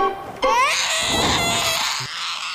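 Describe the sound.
A baby wails loudly, its high, strained cry breaking in after a brief quiet start and carrying on without pause to the end.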